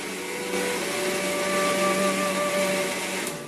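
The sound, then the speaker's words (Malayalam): A mixer grinder grinds roasted coconut, dried red chilli, coriander and fenugreek, first fried in coconut oil and cooled. It gives a steady, fairly loud motor whine with a humming tone, running unbroken and alone, without voices. “ഈ ഒരു mix തണുത്ത ശേഷം മിക്സിയിലിട്ട് നന്നായിട്ട് നരച്ചെടുക്കാട്ടോ.”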